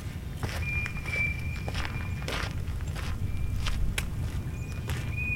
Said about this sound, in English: A walk in Towner's Woods in Portage County.